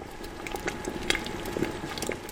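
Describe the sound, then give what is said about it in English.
Cranberry sauce, a syrupy red liquid made from last year's harvest, bubbling inside a large clay pot: a continuous soft simmer of small pops and gurgles at an even, moderate level. “a couple of his employees are cooking up a batch of cranberry sauce made from last year's harvest. A syrupy red liquid bubbles away inside a large clay pot.”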